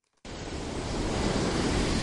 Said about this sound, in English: Monrovia lay under a blue sky, the ocean roared.